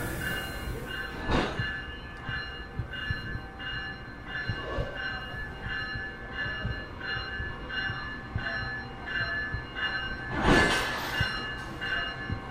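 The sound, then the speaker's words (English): Electric locomotive being uncoupled from a passenger train on a Philadelphia to Washington run after the power is turned off: a quiet, steady mechanical hum with faint tonal ringing, broken by a couple of brief louder clanks. “Well, they've turned the power off on the train now. They're disconnecting the electric locomotive, ready for the diesel locomotive to attach itself in a few minutes.”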